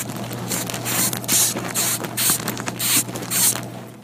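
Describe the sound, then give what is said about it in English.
A moth makes a rhythmic series of crackling, rasping bursts of high hiss, spaced fairly evenly, over a steady low hum. “It's not a person. That's a sound a moth makes. It's the insect world.”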